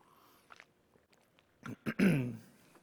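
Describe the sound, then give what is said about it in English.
A person clears their throat: two short rough bursts, then a longer harsh rasp. Loud against a near-silent background. “Excuse me. Got a little something in my throat.”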